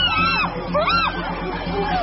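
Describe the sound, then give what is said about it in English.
Loud, overlapping screams from attacking animals that try to intimidate their opponents by screaming and by drumming on buttress roots. The shrieks rise and fall in pitch over a steady low rumble. “To intimidate their opponents, the aggressors scream and drum on buttress roots.”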